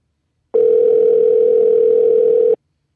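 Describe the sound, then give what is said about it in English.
Ringback tone of an outgoing telephone call: one steady, unbroken electronic tone lasting about two seconds, loud and alone, starting and stopping abruptly. “First caller, we are calling you right now.”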